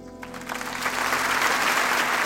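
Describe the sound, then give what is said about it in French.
Applause from an audience welcoming a guest: a dense, steady patter of many clapping hands that swells a little after the start and stays loud to the end, with no voices. “C'est sous les applaudissements que nous vous donnons la parole ce matin.”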